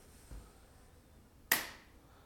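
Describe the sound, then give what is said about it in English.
A single sharp hand clap to sync cameras before an interview snaps out crisply after a quiet pause and is followed by a brief decay. Another abrupt click cuts in at the very end. “Do you need a clap or are you good? Well, yeah, we probably should clap.”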